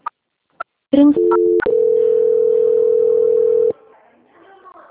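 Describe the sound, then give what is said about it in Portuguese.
A telephone line tone plays while a loan call is being transferred. A few short clicks and brief beeps come first, then a loud, steady, unbroken tone holds for about two seconds before it cuts off into faint line hiss. “Então, eu vou estar transferindo a ligação. Aguarda só um minutinho na linha, tá bom?”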